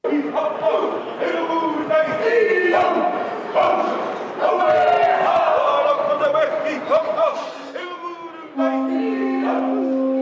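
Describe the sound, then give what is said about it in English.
Group chanting by Maori performers at a welcoming ceremony as Carnival Australia's Pacific Explorer cruise ship docks in Auckland. Loud, continuous massed voices hold sustained tones, with a crowd filling the background throughout. “Indigenous Maori perform a welcoming ceremony as the Carnival Australia's Pacific Explorer cruise ship docks in Auckland with around 2,000 passengers and crew.”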